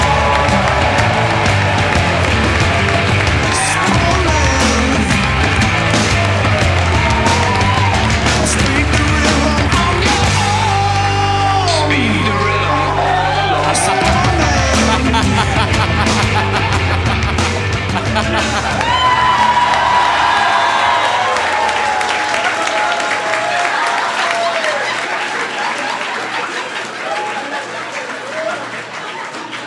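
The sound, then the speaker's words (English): A live audience cheers and applauds for a comedian in a long, dense roar of clapping, whoops and shouting voices that holds steady and then thins toward the end. “Make some noise for the Spoon Man, Mike Mitchell!”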